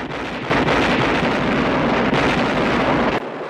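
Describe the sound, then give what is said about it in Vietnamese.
Fireworks explode in the night sky over a Fourth of July celebration, a loud continuous booming rumble with a few heavier surges that cuts off abruptly near the end. “Và bỗng nhiên, bầu trời phát nổ. Có tiếng nổ ầm ầm kinh khủng và những ngọn lửa đỏ và trắng bắn cao trong bầu không khí.”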